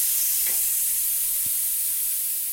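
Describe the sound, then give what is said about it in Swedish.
Frozen corn sizzles in browning butter in a pan, a loud, steady frying hiss that holds evenly throughout without pause. “Men det kommer bryna, det bryns på en gång, smöret. Men så fort jag går ner med det här kommer det ju kylas ner. Så jag går ner med all fryst majs.”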